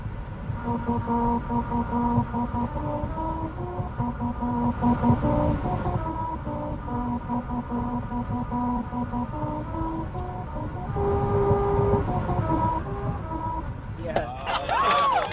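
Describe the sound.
A car drives over the grooved lane of a musical road in Lancaster, California, and the grooves play a melody. Steady stepped tones change pitch from note to note over a continuous rumble of tires and road noise.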